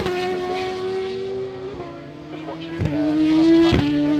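World Superbike motorcycles in practice at Silverstone Circuit make a sustained, buzzing engine drone whose pitch steps up at a couple of points, growing louder toward the end.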